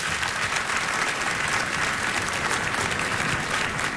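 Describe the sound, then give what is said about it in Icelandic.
An evening concert audience applauds the pianist with sustained, even clapping from many hands, fairly soft but unbroken throughout, with no one speaking. “Við gefum honum gott klapp.”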